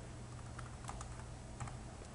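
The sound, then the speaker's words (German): Typing on a computer keyboard as an administrator enters text into a management tool: faint, scattered keystroke clicks in an irregular rhythm over a low steady hum. “der Administrator klickt dann hier auf Approve, gibt einen Text ein”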